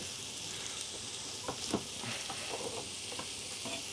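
Onions and garlic sweat in a pan while a one-pot dish is cooked, giving a steady, even sizzle throughout, broken by a few soft stirring scrapes.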